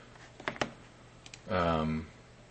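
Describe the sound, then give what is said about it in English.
Computer keyboard keys click as an email address is typed: a few quick taps, a pause, then a couple more, followed by a brief stretch of a voice speaking. “I'll type my email because I don't care if people have it”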